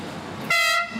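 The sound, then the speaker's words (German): A rack railway train on Mont Blanc in France sounds its horn: a single short, bright toot over a steady background rumble. “Die Rede ist von der Tramway du Mont Blanc, der höchsten Zahnradbahn in Frankreich.”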